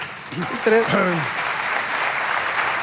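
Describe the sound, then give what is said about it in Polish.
Standing ovation from an audience at an academy ceremony: dense, steady clapping runs throughout, with a brief voice speaking over it near the start. “publiczność na stojąco oklaskuje pana Andrzeja”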